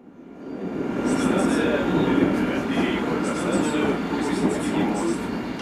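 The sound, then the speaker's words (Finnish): A metro train rumbles at Lubyanka station in the Moscow underground: a steady, dense low roar with faint high squeals running through it from start to finish. “Nousen metrosta Lubjankan asemalla.”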